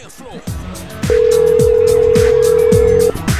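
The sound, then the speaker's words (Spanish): Telephone line tones during a call being dialed to Argentina, including a steady tone held for about two seconds, with voices over it. “Estamos hablando, llamando a Argentina, ¿eh?”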